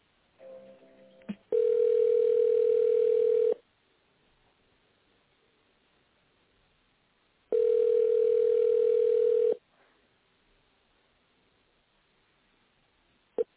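Telephone ringback tone plays while a call is being transferred, as two long, steady mid-pitched tones separated by a few seconds of near-silence. A faint, brief noise comes before the first tone.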